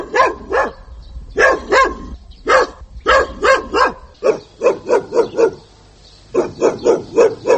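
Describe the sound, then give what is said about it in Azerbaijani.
Feral dogs barking in a village in Nakhchivan's Babek district, where they have been raiding yards: many loud, sharp barks in quick clusters of two to four, with a brief lull before a final rapid run, and no voices. “Naxçıvanın Babək rayonunun Şıx Mahmud kəndində vəhşiləşmiş itlər həyətlərə hücum edir.”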